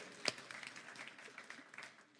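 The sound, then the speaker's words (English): Applause from a church audience: one sharp clap stands out near the start, then a short, fairly soft patter of scattered claps fades out. “But yeah, give him a hand, right? Yay.”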